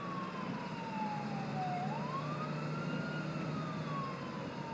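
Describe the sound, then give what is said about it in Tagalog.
An ambulance siren wails in one slow, smooth sweep, dipping, rising again and easing back down. It stays faint and steady over a constant low hum. “Gabi-gabi akong nakaririnig ng sirena ng ambulansya na sobrang lakas.”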